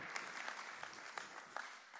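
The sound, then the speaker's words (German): A church audience gives warm applause during a Sunday service, welcoming a guest. The clapping is steady, even and soft, with no voices over it. “Und deswegen lass uns Tore mit einem warmherzigen, tosenden Applaus begrüßen.”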